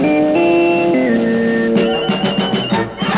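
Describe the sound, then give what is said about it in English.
CBS Radio's sports signature sound, an electronic jingle of sustained held tones stepping between pitches, followed by a quick run of rhythmic percussive pulses under bright tones. “we've got a new set of signals that means great listening on this station. Our sports signature sounds like this.”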